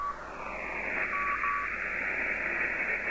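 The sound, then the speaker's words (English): An HF amateur radio receiver gives off a steady tone in a bed of static hiss while a notch filter is swept through the signal, its dip gliding downward and thinning the sound, with no voices. “There's a tone and Morse code. Now I'll try and notch that out.”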